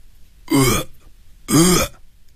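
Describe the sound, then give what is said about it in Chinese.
A drunk man retches, bringing up soup and liquor in two short, loud guttural heaves separated by a brief pause. “肠胃往上翻，紧接着把堵在食管的汤水和酒从嗓子眼儿喷了出来。”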